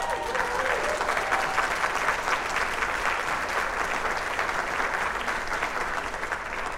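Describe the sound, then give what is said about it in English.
A studio audience applauds without a break for about seven seconds, a dense, even roar of clapping that stays at a steady loudness throughout. “Settle down, guys. Settle down. Yeah. Studio audience went crazy.”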